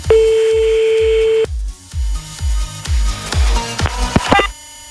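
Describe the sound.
A telephone call being dialed: a steady dial tone, then a quick series of short, varied dialing tones. A regular, thumping low music beat runs underneath throughout.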